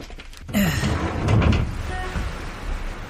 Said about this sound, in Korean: 저, 저 창문이라도 활짝 열고 바람이라도 쐬라.